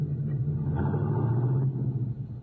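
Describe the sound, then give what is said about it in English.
Low engine rumble of a manual car pulling away slowly in first gear as the clutch is eased out, a steady, deep drone that softens slightly near the end. “Now put it in first. Let the clutch out easy and you'll roll slowly and smooth.”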